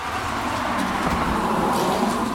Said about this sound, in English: A truck speeds by before Harris